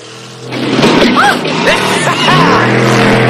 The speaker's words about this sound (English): They send one 4x4 off the road and race past another two before ramping over a bump.